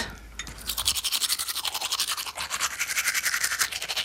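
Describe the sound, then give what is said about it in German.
A toothbrush with toothpaste scrubbing teeth in many quick, rhythmic back-and-forth strokes, a bright, brisk bristly swish that starts after a short quieter moment and continues steadily, with no talking. “So, jetzt noch Zähne geputzt. Ja, Zahncreme drauf, so.”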